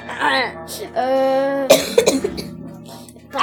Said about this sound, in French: Pardon. Excusez-moi. J'ai juste toussé, ça compte pas. Si, ça monte, j'ai juste toussé, j'ai pas fait exprès.